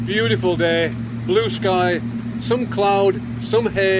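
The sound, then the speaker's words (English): Steady low engine drone from the sports fishing boat Teldrin, a press boat heading out, hums continuously beneath a person talking. “The noise you can hear in the background are the engines on the sports fishing boat Teldrin.”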